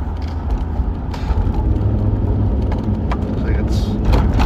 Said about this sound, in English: Just driving over the bridge.